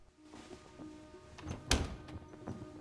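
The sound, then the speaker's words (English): A door closes with a single firm thud near the middle, as a woman shuts it behind her on entering a bedroom; a faint steady hum and a few soft knocks surround it. “He gets up as she closes the door behind her.”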